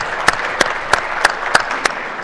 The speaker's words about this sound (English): Appreciate everybody giving applause.